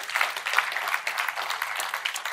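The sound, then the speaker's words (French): Church audience applause during a French-language sermon, dense and steady clapping that holds a fairly even level for the whole stretch with small bursts of sharper claps. “Est-ce qu'il y en a qui peuvent applaudir notre Dieu qui nous donne la victoire?”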